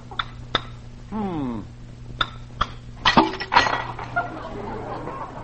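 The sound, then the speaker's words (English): An egg cracked on the side of a cup: a few light, sharp taps, then a brief crunchy crackle as the shell breaks. “I'll crack this egg on the side of a cup here.”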